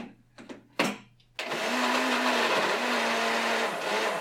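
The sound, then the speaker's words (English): A blender whirs as it blends a dairy-free, pumpkin pie-style anti-inflammatory drink. A few short knocks come first, then a loud, steady, continuous whir with an even droning hum runs to the end. “So we're going to blend. Plug your ears. It's loud.”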